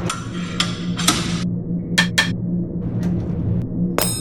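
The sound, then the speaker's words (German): Someone tinkers with tools under a console on a space station, making a few sharp metallic clicks, taps and short clattering rattles at irregular moments over a steady low hum. “ihre Schicht hat noch nicht begonnen und sie schrauben schon seit über 45 Minuten unter der Konsole rum.”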